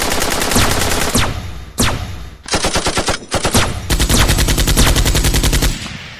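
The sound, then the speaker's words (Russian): Rapid automatic gunfire from a firefight against droid targets comes in several loud, sharp bursts of fast repeated shots separated by brief gaps, with no talking. “И мы открыли огонь.”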